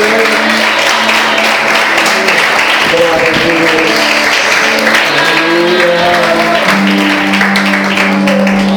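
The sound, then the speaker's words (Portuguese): Loud applause in a church service rings out after someone is invited to give their life to Jesus. Many hands clap in a steady, unbroken roar over sustained musical tones, with voices mixed in. “Aplauda Jesus por essa vida.”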